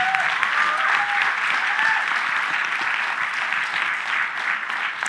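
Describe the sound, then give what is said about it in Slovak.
Applause from an audience at a church gathering: dense, even clapping that holds at a steady level for the whole stretch, with a faint voice rising over it near the start. “Môžem zatleskať.”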